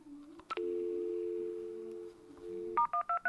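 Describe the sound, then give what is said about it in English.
Dialing *123 on a phone keypad: a short tone gives way to a long, steady hum of dial tone, and then a quick run of clipped, two-pitched keypad beeps follows at the end. “And to access it, you dial *123.”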